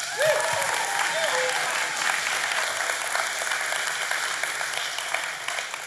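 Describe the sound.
An audience applauds to welcome a speaker to the stage, dense, sustained clapping that stays loud and even throughout.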